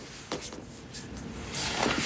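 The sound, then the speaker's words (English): A door is locked, giving a few short mechanical clicks and a soft rattle of the latch. The sounds are fairly quiet, with light shuffling noise around them. “Lock the door.”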